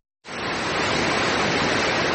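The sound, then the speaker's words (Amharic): Rushing water of the Sor waterfall in Bacho district, Illubabor zone, Ethiopia, a dense steady roar that starts abruptly after a brief silence and holds at an even, loud level throughout. “ይህ በኢሉባቦር ዞን በቾ ወረዳ የሚገኘው የሶር ፏፏቴ ነው።”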